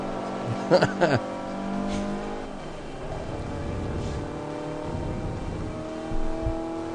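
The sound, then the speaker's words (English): A car engine revs in a racing video game, a steady harmonic drone whose pitch shifts as it accelerates. A couple of short clicks come early on. “Driving the line. That's what you're supposed to do. Yeah. Look at that. We're in first. Easy AI difficulty wins.”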